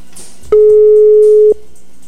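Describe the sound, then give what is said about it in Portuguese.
A telephone ringback tone sounds while someone is being called: one loud, steady, mid-pitched beep about a second long, with quiet background before and after. “Vamos ligar pra ela, verdade. Não tinha pensado nisso, rapaz. Será que ela vai atender? Vamos ver.”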